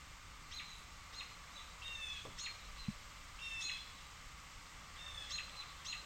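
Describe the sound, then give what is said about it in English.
Faint song of an American robin in a park, a few short, high chirping and whistled phrases repeating at intervals over a steady background hiss. “Was an American robin.”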